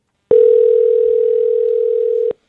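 Telephone dial tone as a call is being placed: a steady, single-pitched tone lasting about two seconds that starts and stops abruptly.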